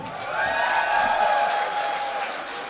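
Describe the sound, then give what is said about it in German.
An audience at a live stage show gives a short round of applause, steady clapping carrying a sustained cheer or whoop above it, staying at an even level throughout. “Ein Applaus für den Daniel.”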